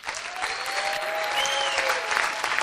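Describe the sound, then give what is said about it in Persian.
Audience applause at a coaching session: steady, fairly quiet clapping that keeps an even level throughout, with no voices. “آیه غلامی محبت رو تشویقش کنید”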